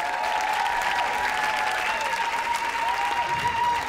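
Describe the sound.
Audience applause and cheering at a live comedy show: a dense, steady wash of clapping with cheering voices mixed in, loud and continuous throughout.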